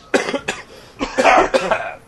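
Several harsh coughs come in short separate bursts, spaced unevenly across the moment, fairly loud and with no talking between them.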